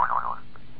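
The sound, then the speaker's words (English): A jaw harp gives a single short twanging boing with a wobbling, slightly falling tone. It is played alone and fades out quickly. “persists in playing that ridiculous, obscene musical instrument, which I prefer to call the jaw harp.”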